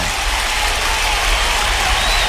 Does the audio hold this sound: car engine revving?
no